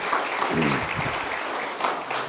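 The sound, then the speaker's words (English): A church audience clapping in praise, a dense wash of hand claps, with a voice briefly heard through the applause. “Give Jesus a hand clap of praise if you would, please.”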